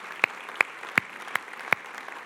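A church audience applauds to welcome joining campuses: faint, diffuse clapping with five sharp, evenly spaced claps standing out above it.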